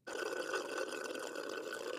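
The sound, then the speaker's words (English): Sucking the last liquid through a straw at the bottom of a cup, a continuous gurgling slurp lasting about two seconds. “I think that it is like the straw, like sucking liquid out of a straw, but it's like the bottom of the can or bottom of the cup.”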